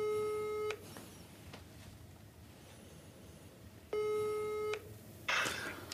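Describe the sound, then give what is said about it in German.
Ringback tone while a phone call is being placed: two steady, buzzing tone bursts just under a second each, separated by a pause of about three seconds. A short noisy burst follows at the end, all fairly faint. “Warte, ich ruf ihn an.”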